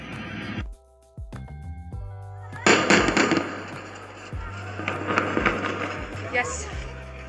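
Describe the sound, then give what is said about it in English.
An airstrike explosion close by in a neighborhood under bombardment: a sudden loud blast hits mid-clip and leaves a long, rumbling, crackling roar that slowly fades, after a few quieter tonal sounds and brief voices. “This is just an airstrike now that you've heard. It seems that it's very close here from the area of where we are.”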